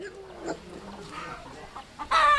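Chickens clucking as they roam free outside a tiny mud brick home, a few soft, scattered clucks giving way to a louder, sharper burst of calls at the very end.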